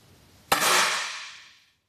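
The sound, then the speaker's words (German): A single rifle shot at a shooting target: one sharp crack followed by a bright, hissing tail that fades away over about a second, with no voices. “Sie schiesst 3 Mal. Einmal fast in die Mitte, die beiden anderen Mal nicht ganz.”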